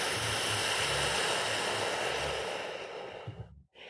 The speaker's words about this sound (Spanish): Vamos a inhalar por la nariz, llenando pulmones. Y vamos a soplar el aire por la boca, exhalamos.